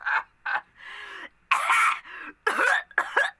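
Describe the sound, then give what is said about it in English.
Repeated throat clearing, a series of harsh, rasping bursts of varying length. They are fairly loud and come alone, with no talk. “Sorry, I got something caught in my throat!”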